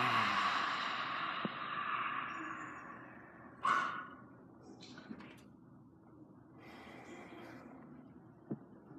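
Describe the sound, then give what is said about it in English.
Deep inhale and exhale during a relaxation exercise, a soft airy breath that fades slowly over a few seconds, followed by a faint brief second breath. The sound is quiet throughout, with no talking. “And then take a deep inhale. And let it go.”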